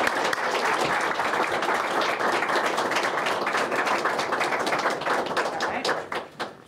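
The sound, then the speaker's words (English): Applause welcoming Arizona's new women's basketball coach: dense, sustained clapping from a crowd holds steady, then thins out and fades near the end. “So without further ado, bear down, welcome home our next women's basketball coach. Let's give it up.”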